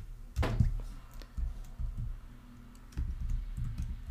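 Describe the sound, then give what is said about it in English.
Typing on a computer keyboard while entering paragraph text into the body of a web page: faint, irregular keystroke clicks in short clusters over a low background rumble. “I am going to type something in the body. Let's type 4 paragraphs.”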